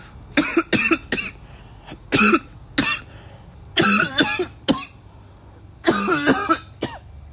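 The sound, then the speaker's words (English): Harsh coughing breaks out in repeated fits of several bursts each, from a man toasting and smoking a cigar after a day without smoking. The coughs are loud and come alone, with no talk. “I haven't smoked in a day, and that cough is well needed.”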